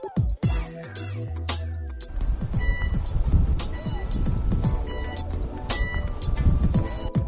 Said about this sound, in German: Wir sind hier gerade am Hamburger Hafen. Wir steigen gerade in die Fähre.